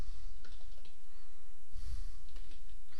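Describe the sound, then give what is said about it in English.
A computer keyboard clicks a few times, soft and irregular, as a URL is typed into Internet Explorer, over a steady background hiss. “And let's type in URL over to one of those sample websites.”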